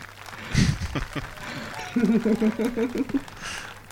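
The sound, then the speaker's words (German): Thunderous applause from an audience keeps going in a dense, steady clatter of clapping under a person talking. “Hört gar nicht mehr auf. Aber man kann mich hören, oder? Man kann mich hören. Okay. Das ist ein tosender Applaus hier.”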